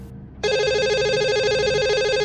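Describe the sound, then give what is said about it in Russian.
A home telephone rings with a loud, steady electronic warbling tone that starts abruptly after a short quiet moment and continues without a break to the end. “Зазвонил домашний телефон. Я невольно вздрогнул.”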